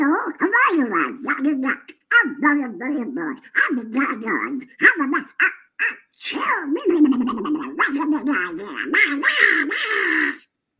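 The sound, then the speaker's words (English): A voice imitates the Donald Duck cartoon duck, a raspy, gargling, quack-like squawk delivered in rapid, loud bursts with brief gaps, continuing for about ten seconds. “So I worked on it, and I thought it'd be fun to do Donald Duck.”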